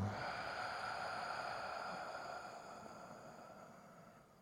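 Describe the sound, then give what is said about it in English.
A slow, deep exhale during a guided breathing exercise, a long soft rush of air that gradually fades over several seconds against a steady, quiet tonal hum. “Let's do that again. Deep breath in and let it go.”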